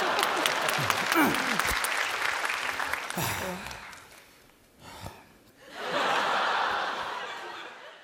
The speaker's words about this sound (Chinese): 你先鼓掌。